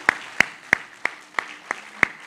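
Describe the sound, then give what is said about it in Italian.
Hands clap at an orchestral concert event: seven sharp, evenly spaced claps in a steady rhythm, each one crisp and distinct against a quiet background. “Grazie, un applauso lo facciamo noi a voi.”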